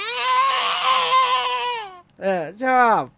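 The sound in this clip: A voice imitates Godzilla's roar with one long, strained, high-pitched screech, then two shorter wails that dip and rise in pitch.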